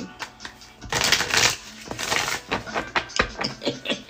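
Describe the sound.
Tarot cards are handled and gathered up to be put away, giving a dense, papery rustle and riffle broken by many quick taps and flicks. The sound is fairly loud and steady, with no talk.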